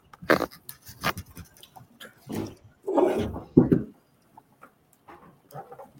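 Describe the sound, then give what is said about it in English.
Dogs barking in a few short, irregular bursts, some loud and others faint, with quiet gaps between them. “I don't know if you can hear my dogs barking.”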